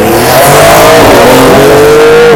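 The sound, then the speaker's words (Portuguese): A Porsche drives past with a loud engine roar that shifts in pitch as it goes by. The roar stays strong and continuous throughout, with no voices. “Caralho, passou uma Porsche aqui, mano.”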